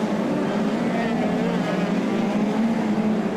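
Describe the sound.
Midget race cars run at full speed on a speedway, their engines merging into a loud, steady droning roar with a buzzy low hum and no clear breaks.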